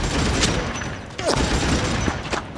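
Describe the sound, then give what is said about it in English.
Intense gunfire exchange on a sci-fi battlefield, bolter fire traded with advancing power-armored troops: a dense, continuous roar and crackle of shots, with a few sharper, louder cracks punching through the barrage. “Return fire! The air is seared by an intense weapons exchange.”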